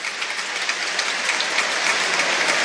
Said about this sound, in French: Et vous entendez peut-être la minute d'applaudissement, la minute 23, la minute dédiée